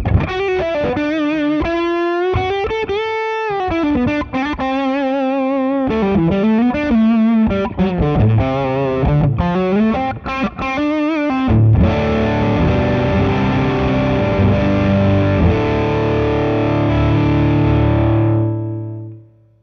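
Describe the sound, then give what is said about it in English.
Fuzzy electric guitar played through an amp with the bass turned nearly all the way up. Distorted melodic runs give way to a thick, muddy, held chord that rings out and fades at the end, with no talking. “So when I roll the bass up even more, now it's almost all the way up. It does increase the amount of low-end content, but it does get fuzzier.”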